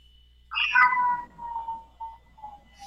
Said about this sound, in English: Oh, that's a kitty cat.